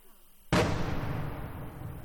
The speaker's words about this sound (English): The boom of outgoing fire. A pro-Russian artillery piece can't be far from the village.